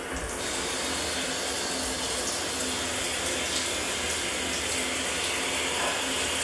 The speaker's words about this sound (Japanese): シャワーでいいだろ。